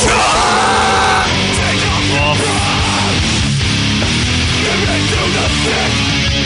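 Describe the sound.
People scream into a microphone, a loud, harsh, distorted wall of yelling that runs without a break from start to finish.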